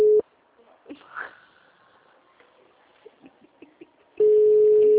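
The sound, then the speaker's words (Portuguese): Ringing tone on a phone line while calling someone: a short steady mid-pitched tone at the start, a quiet stretch with faint scattered noises, then a second loud steady tone that continues to the end. “Ela tá ligando pro Emerson.”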